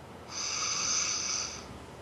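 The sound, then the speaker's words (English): A long, steady inhale during a guided meditation, heard alone as a smooth hissing breath with a faint whistling edge, swelling in and holding for just over a second before fading. “As we take a deep breath in”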